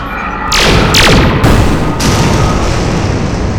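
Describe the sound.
Spaceship weapons fire in four loud, sharp blasts, each with a falling sweep, over a steady roaring rumble.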